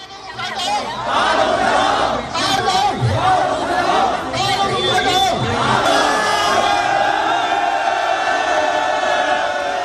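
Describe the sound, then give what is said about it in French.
Pro-democracy demonstrators in Hong Kong fill the air with loud crowd noise during their annual Tuesday march. Many voices shout and cry out together, with chatter mixed in and no letup. “partons pour Hong Kong, où mardi, comme chaque année, des militants de la démocratie ont manifesté, vous les entendez.”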